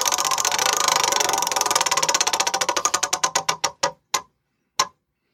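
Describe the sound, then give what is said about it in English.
A prize wheel spins with a rapid, steady clatter of clicks that slows and thins out, ending with a few widely spaced last ticks before it stops. “All right, we need to spin the uh, How Smart is Carol wheel.”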